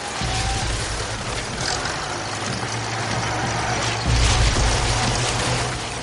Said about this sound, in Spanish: Se trata de varios coches que avanzan por un camino desértico, en lo que parece una excursión.